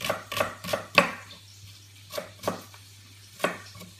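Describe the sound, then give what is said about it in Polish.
A knife cuts through a red onion, giving a quick run of sharp chopping knocks, then a few more widely spaced cuts. The crisp taps sound alone, with no talk. “Tak jeszcze przekroję na pół, żeby to było dobrze czuć. Przycisnę ją trochę. Cebula pokrojona.”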